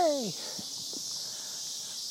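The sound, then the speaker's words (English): Cicadas buzz outdoors on a summer day with a faint, steady high-pitched drone throughout. A brief falling tonal squeal sounds at the very start. “MMA and Stuff with Mike Copland is taped before a live studio audience of cicadas. I fucking love the cicadas. Cicadas make me so happy.”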